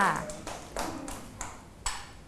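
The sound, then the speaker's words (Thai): A few scattered, faint hand claps from children cheering on a classmate during a class activity, sparse and irregular, with a voice briefly heard at the start. “ปรบมือให้กำลังใจเพื่อนด้วย”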